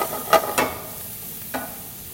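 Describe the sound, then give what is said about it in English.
Minced garlic sizzles in a hot pan, a steady bright hiss of frying with a few short scraping bursts as it is stirred. “And then I'll add my garlic, finish cooking that.”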